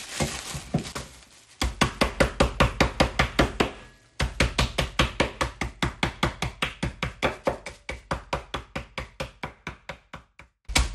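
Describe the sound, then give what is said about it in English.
A rolling pin crushes shortbread biscuits inside a bag with many sharp, even knocks in a steady rhythm, broken by a few short pauses. “So I'm just going to use a rolling pin to crush the shortbread biscuits in a bag.”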